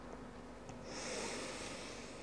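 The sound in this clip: A soft, airy exhale during a guided breathing exercise begins about a second in after a quiet pause. It is faint, with no speech.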